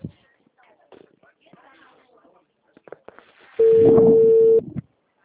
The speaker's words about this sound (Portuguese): Não, não peguei ainda, tô ligando.